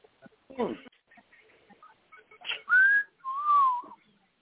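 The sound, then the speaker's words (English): A person whistles two clear notes, the first gliding slightly upward and the second longer and drifting down. Brief bits of speech and a few soft noises come before them. “Here we go with the whistle. Here we go with the whistle.”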